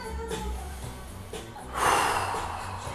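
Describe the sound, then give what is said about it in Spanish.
A slow, deep breath drawn in through the nose and let out through the mouth, soft and airy, with the breathier exhale swelling louder toward the end. “Inhala bien profundo. Inhala por tu nariz, exhala por tu boca.”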